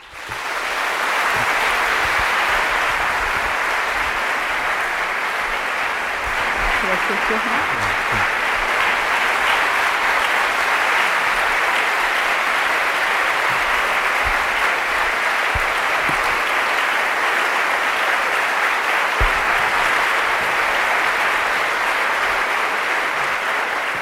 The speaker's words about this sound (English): Please join me in welcoming Aung San Suu Kyi.